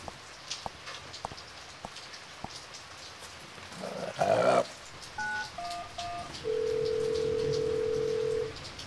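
A caller phones out during a power outage: a few quick touch-tone dialing beeps, then one steady ringback tone lasting about two seconds. Both sound over a low hiss with scattered clicks and a brief crackling burst.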